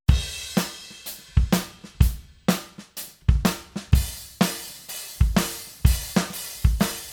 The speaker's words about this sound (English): We've got a drum kit, which sounds like this.